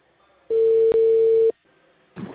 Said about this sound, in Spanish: se cortó la llamada.